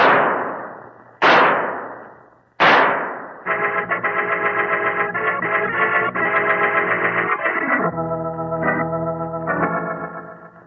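Three loud pistol shots are fired at a fleeing killer. Each is a sharp crack with a ringing decay, spaced about a second apart, and sustained music follows.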